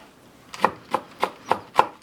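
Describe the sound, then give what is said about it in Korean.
A knife chops onion and carrot finely with about six crisp, evenly spaced chops in a steady rhythm, after a faint first tap. The chops are alone, with no talk. “양파와 당근을 잘게 썰고 밥과 함께 잘 볶은 뒤 달걀 오믈렛을 만들어 올렸다.”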